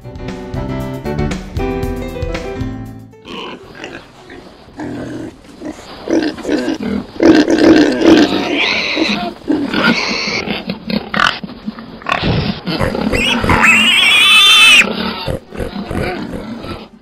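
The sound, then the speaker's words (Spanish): Pigs grunt and oink in loud, rough, irregular bursts after a short musical passage at the start, with a shrill squeal near the end. “El cerdo es un animal que suele gustar de los lodazales, de aguas pestilentes y de comer todo lo que esté a su alcance, aun si esto fuera basura.”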